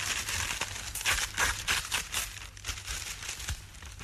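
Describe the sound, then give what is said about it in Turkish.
Paper rustles and crinkles as an envelope from ABC is opened and torn so the letter inside can be read: a few quick, crisp bursts of crumpling and tearing, then softer handling. “E, mektubu önce senin açıp okumanı istiyorum. Neden? Ondan. Aç oku da sonra söylerim.”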